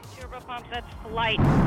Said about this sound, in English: Liftoff. Liftoff of the Soyuz TMA-05M carrying Sonny Williams, Yuri Malenchenko, and Aki Hoshide on a two-day journey to the International Space Station.